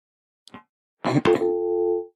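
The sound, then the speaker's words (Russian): A steady telephone tone marks a dropped call on a phone-in line. A faint blip and a short burst of noise with a click come first, then a single sustained tone holds for under a second. “К сожалению, звонок у нас сорвался.”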